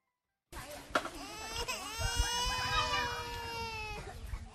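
A two-year-old child cries inside a tent in a refugee camp, a sustained, wavering wail with sobbing breaks that holds steadily at a loud pitch.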